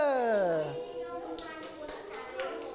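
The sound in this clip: Children clapping their hands in a classroom: an adult voice speaks briefly at the start, then a few short bursts of claps follow at spaced intervals.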